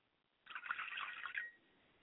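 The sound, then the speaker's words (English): Liquid poured out as a libation toward the east in a ritual honouring Obatala and the ancestors: a faint, bubbly stream of splashing that lasts about a second, with nothing else heard. “Pouring libations to the east, I say Ashe.”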